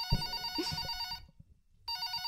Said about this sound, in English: Dialing across America to Saints general manager Mickey Loomis